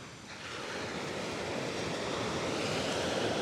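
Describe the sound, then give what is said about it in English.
Waves wash onto a New Zealand beach below jagged cliff faces, a steady low surf roar mixed with wind that swells slightly at the start and stays constant. “And I'm looking back down to the southern end of the beach, which abruptly changes from beach into jagged cliff faces”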